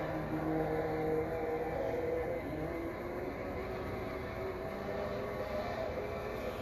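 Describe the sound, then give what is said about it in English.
A car engine strains in low gear in a scene from the film Evil Dead 2, a continuous droning whine over a low, steady rumble that holds its level throughout. “Uh-oh. Change gears. Seriously. You're going to burn out your engine.”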